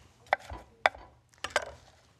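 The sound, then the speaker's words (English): A sharp knife chops vegetables on a board, giving four crisp, fairly quiet knocks spaced unevenly, the last two close together. No one speaks. “It's really important to have a really sharp knife when cutting something like this, because it's very easy for the knife to slip off the sides and get your fingers”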